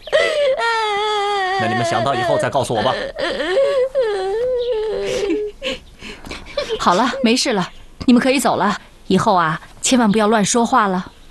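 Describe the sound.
Crying: a person wails in long, high, wavering moans, then breaks into shorter, choppy sobbing bursts with brief pauses, loud and emotional throughout.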